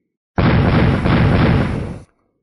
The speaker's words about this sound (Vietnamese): Bốn âm thanh vang lên, bốn cái lệnh bài được cầm trong tay mấy người Bạch Diện Thư Sinh liên tiếp bạo liệt ra, biến thành bột mịn.